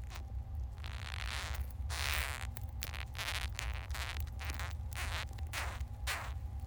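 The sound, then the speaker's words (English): Dung beetle courtship song: rasping, zipper-like stridulation pulses repeat in irregular bursts over a low steady hum, fairly faint throughout, with no voices. “The beetles have three different types of song and dance, A, B, and C. They sound like this.”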